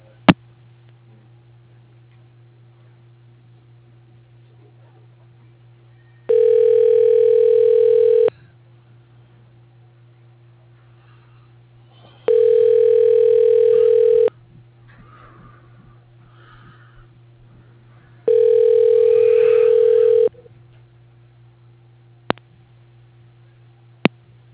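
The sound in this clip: A telephone ringback tone sounds while an extension is tried: three long, even, buzzing rings with regular pauses between them, over a low steady hum and a few faint clicks.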